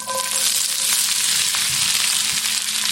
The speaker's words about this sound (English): We heat a few glugs of olive oil in the skillet and add the onions and cubed eggplant and some salt and pepper.